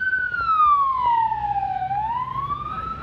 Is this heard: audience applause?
no

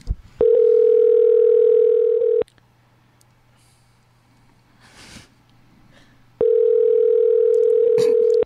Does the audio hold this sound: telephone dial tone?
yes

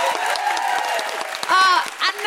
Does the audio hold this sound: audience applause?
yes

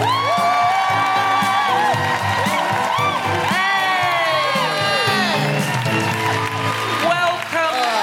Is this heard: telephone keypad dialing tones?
no

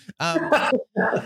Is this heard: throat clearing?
yes

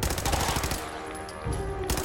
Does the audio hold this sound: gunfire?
yes

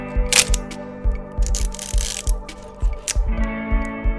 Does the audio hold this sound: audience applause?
no

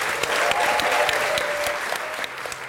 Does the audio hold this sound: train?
no

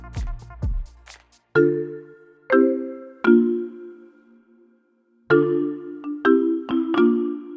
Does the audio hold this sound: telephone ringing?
yes

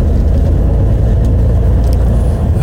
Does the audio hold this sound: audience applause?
no

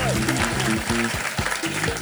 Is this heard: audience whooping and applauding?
yes

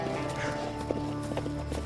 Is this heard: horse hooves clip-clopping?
yes

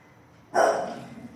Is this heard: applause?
no

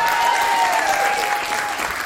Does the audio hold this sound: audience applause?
yes

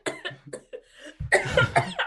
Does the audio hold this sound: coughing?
yes

